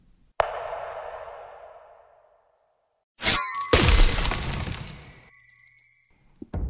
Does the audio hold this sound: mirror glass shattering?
yes

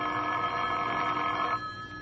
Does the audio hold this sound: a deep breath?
no

